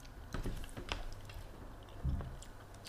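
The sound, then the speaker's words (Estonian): Chewing of shrimp: faint, wet mastication with a few soft crunches and clicks, and a slightly louder bite near the end. “ma arvan, sest just sööb krevette.”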